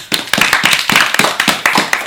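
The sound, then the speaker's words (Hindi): Loud hand clapping rewards a correct answer during a riddle game: a quick burst of many sharp claps in a fast, slightly uneven rhythm. “सही जवाब, तो मेरे लिए तालियां।”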